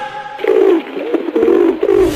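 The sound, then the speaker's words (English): A pigeon coos in a few soft, low, throaty phrases with short pauses between them. The coos are loud and heard alone. “Pigeon is coming!”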